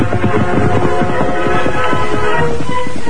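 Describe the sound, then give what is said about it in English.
Hoofbeats of Silver, the Lone Ranger's horse, riding away at speed: a fast, rhythmic drumming of hooves that runs steadily under a sustained tonal bed. “Then he heard departing hoofs and saw the Lone Ranger ride from the west end of the woods and head toward the west trail.”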